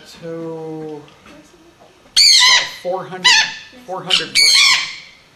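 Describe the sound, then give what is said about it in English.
A female Patagonian conure, the largest conure, squawks loudly. It gives several harsh, raspy screeches in a row right after a brief spoken voice. “But this is the largest of the conure family, the Patagonian.”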